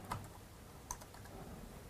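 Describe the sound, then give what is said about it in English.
Fingers type a search on a computer keyboard, producing two distinct, faint key clicks spaced apart with quiet between them. “and let's see what happens if I just type in thank you notes.”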